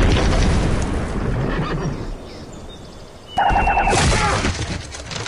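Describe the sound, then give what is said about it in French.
A boomerang ballista fires as an audio-drama effect: a loud, dense rumbling bed thins out, then a sudden sharp crack is followed by a wavering, whistling tone over renewed noise. “J'ai un modèle de baliste boomerang. Soldat, armé, portée 650, pointage en tête à 15 degrés, azimut 54 est. Tirez.”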